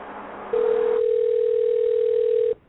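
Steady ringback tone of an unanswered telephone call, a single unbroken, even-pitched tone lasting about two seconds before it cuts off, preceded by faint background noise.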